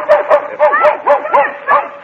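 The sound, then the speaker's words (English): A small dog barking and whimpering indoors: a quick series of about seven high, yelping barks with whiny, pitch-bending whimpers between them, loud and alone with no talk. “get that dog out of here”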